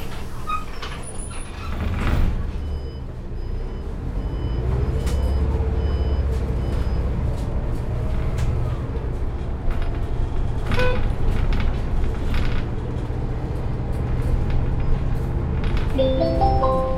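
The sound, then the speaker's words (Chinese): City bus pulling away from a stop, its engine settling into a loud, steady low rumble after a short hiss near the start, with a few electronic beeps near the end. “车辆起步，请扶稳坐好。”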